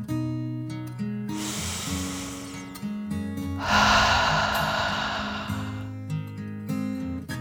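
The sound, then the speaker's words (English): A slow, deep breath drawn in and then let out in a long, airy exhale, both heard over a soft, sustained musical background. “Then they took one more deep dragon breath, in and out.”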